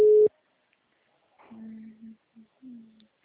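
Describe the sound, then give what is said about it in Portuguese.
A telephone busy signal sounds once as a short, loud, steady tone at the start. Quiet follows, broken by a few faint low hums. “Gente, quase que eu falo de ligação. O número está ocupado.”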